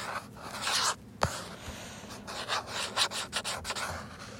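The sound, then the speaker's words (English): Drawing a character's side profile and tail makes faint, uneven rubbing and scratching strokes across a surface, many short passes, with one sharper tap near the start. “I suck at side profiles, and I decided to draw a side profile, so... Yeah, can't forget his tail.”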